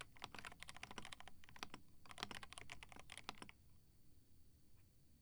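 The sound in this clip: Quick clusters of keystrokes on a computer keyboard patter in uneven bursts, then stop, leaving near-silence; soft and faint throughout.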